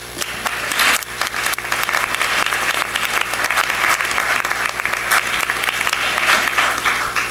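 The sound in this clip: Audience applause welcoming a speaker at a panel on the refugee crisis: dense, steady clapping from many hands that carries on evenly for about seven seconds.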